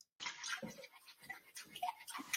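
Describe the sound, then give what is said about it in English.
Dishes being washed under running water at a sink, a faint trickle of water with scattered soft knocks and splashes. “Are you kidding me? You can't just wash one cup. You see me standing here doing all these dishes, and you can't just wash one cup.”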